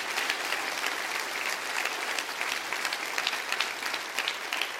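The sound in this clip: A church audience claps hands together, a dense, even patter of many palms sustained throughout at a fairly soft level.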